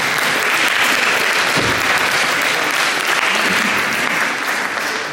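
An audience bursts into loud, dense applause that holds steady for about five seconds with no break, then eases slightly at the very end.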